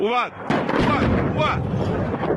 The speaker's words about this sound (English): Today in Tehran, the epicenter of this widening war, the plumes of smoke were massive and the explosions thunderous